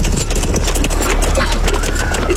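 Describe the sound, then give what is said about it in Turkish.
Hooves of approaching horses with riders in a dramatized scene: a dense, continuous clatter of hoofbeats over a heavy low rumble, with voices mixed in. “Atlılar geliyor efendim. Atlılar.”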